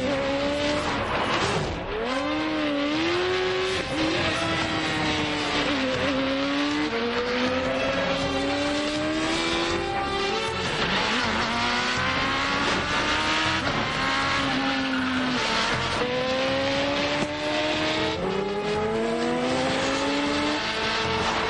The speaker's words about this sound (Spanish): Circulan por una carretera de montaña. Suben un puerto. Adelantan esquivando a los coches que vienen de frente.